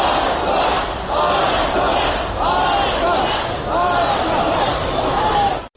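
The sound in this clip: A large crowd at a rally in Artsakh, where thousands gathered, shouts together in loud, repeated chants that rise and fall in a steady rhythm over continuous crowd noise.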